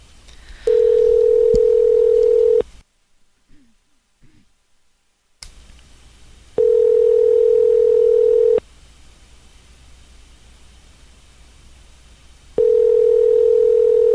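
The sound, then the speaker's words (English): A telephone call rings out with three long, steady tones of about two seconds each, separated by quiet pauses, with a few faint clicks in the first gap. “Let's give him a call.”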